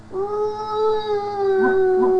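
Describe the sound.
A voice imitates a dog howling with one long, sustained, tonal howl that holds a fairly steady pitch at moderate loudness, with no other sounds.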